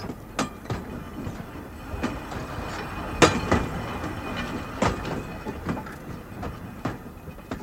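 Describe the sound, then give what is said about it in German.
A freight train hauling fine coal from a mine shaft to a gasworks passes a level crossing. A continuous low rolling rumble carries many sharp wheel clacks at uneven intervals, at a moderate, steady level. “Und nun geht die Schranke runter. Sie versperrt uns den Weg. Man sieht den Zug nicht. Noch deckt ihn die Kurve. Aber jetzt.”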